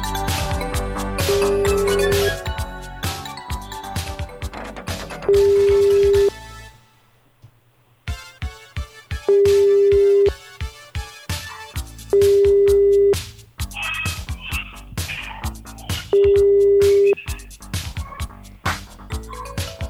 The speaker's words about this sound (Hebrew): בוא נתקשר אליו. מעולה.